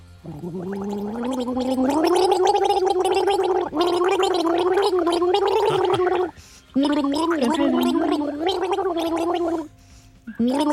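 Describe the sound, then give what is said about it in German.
Gargling voice warbling the melody of a pop hit, one continuous bubbly, throaty line that rises and falls in pitch, loud and alone, with two brief breaks before it resumes. “Hör gut zu und sag uns, welchen Song haben wir hier gegurgelt?”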